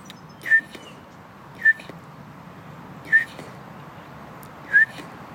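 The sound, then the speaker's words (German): A person whistles an imitation of a bullfinch call in a park: four short, high, thin whistled notes, evenly spaced and fairly quiet over a soft, steady outdoor hiss. “Das ist der Dompfaff. Vogel, den wir dieses Jahr viel gesehen haben.”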